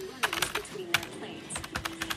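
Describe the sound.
Keyboard typing: quick, irregular keystroke clicks come in bursts with short pauses, over a faint steady tone.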